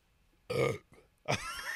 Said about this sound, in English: I like how you burp